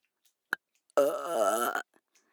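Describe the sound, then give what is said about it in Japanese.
A long, loud, drawn-out burp rumbles for nearly a second, preceded by one brief sharp puff of breath, with no talk around it. “なんでよりによってゲップなんだよ。”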